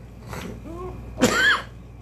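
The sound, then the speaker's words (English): A couple of coughs: a short breathy first burst, then a louder, harsher, partly voiced second cough. “Excuse me. My voice isn't back 100% when I get that engaged, I cough.”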